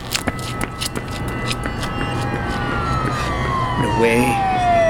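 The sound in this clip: A police car siren wails, its tone gliding steadily downward in pitch and growing louder toward the end, preceded by a few sharp knocks, with a voice briefly heard.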